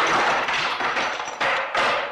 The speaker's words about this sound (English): Coppola there and Walter Murch, the great sound designer, here on The Conversation, they amplify that because the score completely goes out at that point and we just get the sound of that statue shattering as he hits it repeatedly.